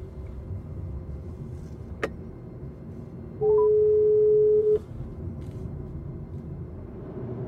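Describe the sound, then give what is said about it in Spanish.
Ringing tone of an outgoing phone call, a single steady mid-pitched tone lasting about a second and a half, over a continuous low car-like rumble, preceded by a brief sharp click. “llamar a José Hermida. Llamo a José Hermida.”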